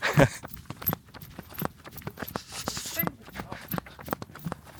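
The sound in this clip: Footsteps of a group setting off at a run: many quick, uneven thuds and crunches in a loose rhythm, with people talking over them.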